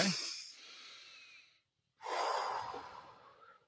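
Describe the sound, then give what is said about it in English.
Deep breathing in through the nose and out through the mouth during a relaxation exercise: one long, soft inhale, a pause of silence, then a louder, airy exhale. No talk. “So in through your nose, out through your mouth three times.”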